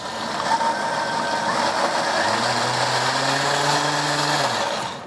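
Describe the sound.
A kitchen mixer runs at medium speed, emulsifying a mayonnaise-style sauce of oil seasoned with salt and white pepper. Its steady whirring motor drone holds throughout, shifting tone partway through, then stops at the very end.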